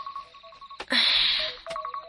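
A mobile phone's alarm goes off while the phone is charging. It gives short electronic beeps at a steady pitch, with a louder burst of noise partway through.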